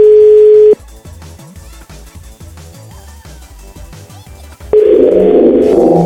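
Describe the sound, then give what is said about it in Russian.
A steady telephone dial tone at the start of a call to a number that may be a landline, then a string of short beeps as the number is keyed in, ending in a loud, harsh, squealing tone. “Сейчас, секунду. Так тяжело эти номера набирать.”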